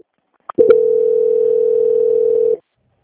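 A telephone line tone plays during a call transfer. After a couple of short clicks, one loud, flat tone holds for about two seconds, then cuts off.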